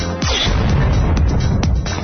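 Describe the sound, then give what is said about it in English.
A cruiser is destroyed in a video game: a loud explosive roar with a falling sweep at the start, then sustained blast noise with a couple of sharp cracks before it ends. “Now that's what it sounds like when you destroy a cruiser, obviously.”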